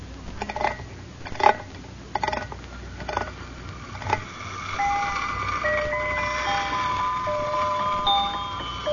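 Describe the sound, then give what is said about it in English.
A wind-up toy merry-go-round gives a few sharp ratcheting clicks as it is wound, then spins and plays a bright, tinkling music-box tune of high, sustained notes that continues steadily to the end. “First, you wind it up, and then you release the lever, and it spins around and plays music.”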